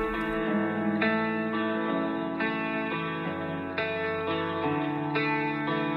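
A song plays with rich sustained harmonic tones and steady chord changes, moderately quiet and continuous throughout, with no talking over it.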